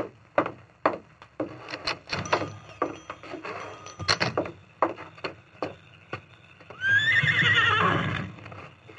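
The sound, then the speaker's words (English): A big male horse being mounted and ridden off through a town: a run of uneven hoof clops, loud and sharp, then a long, loud whinny near the end. “Then he mounted. Easy, city, big fella. Come on, Silver! He rode eastward through town”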